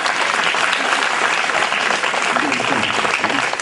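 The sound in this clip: An audience claps loudly at a religious discourse on the Hindu Puranas, a dense, steady wash of applause that holds at full strength throughout.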